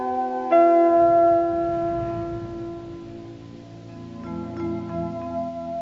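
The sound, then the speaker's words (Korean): A large bell tolls in a sequence of thirty-three strikes. One strong strike rings out with a rich, humming tone that slowly decays, and a few fainter strikes follow near the end. “33번의 종소리. 이 종소리 들으시면서 여러분 무슨 생각하셨습니까?”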